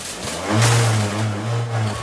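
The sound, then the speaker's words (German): A moped engine starts up and rides off in a dramatized chase scene: a steady, buzzing motor that swells in loudness, then holds a droning tone. “Er springt auf sein Moped und fährt los.”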